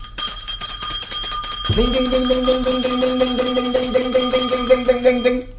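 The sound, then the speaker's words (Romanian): A small hand bell rings steadily in rapid strokes for about five seconds in a radio play, with a low sustained tone joining partway through. “Poate că nu sună destul de tare clopoțelul.”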